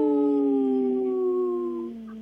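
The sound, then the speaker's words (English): Human voices imitate wolf howls in one long, loud, sustained tonal howl whose pitch drifts slightly downward before trailing off, with no other sounds. “Wow, I thought it was going to be a single howl today.”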